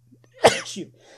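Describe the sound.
A single sharp sneeze bursts out after a faint intake of breath and trails off quickly over a low steady hum.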